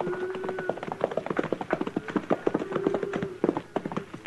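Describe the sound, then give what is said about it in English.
A horse loping on a cattle trail drive, as a radio western effect: many quick, rhythmic hoof clip-clops in uneven groups of beats, moderately loud and continuing throughout over a faint steady background tone. “Jackson and I were riding the swing of the herd when Dolph Quince loped up behind us.”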